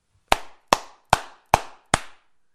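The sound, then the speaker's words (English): Five sharp hand claps, each made by one hand striking the flat palm. They are loud and evenly spaced, each with a short ringing decay, and nothing else is heard between them. “with one hand hitting your palm. Did you hear the strength and sound of that clap? Now that is a clap.”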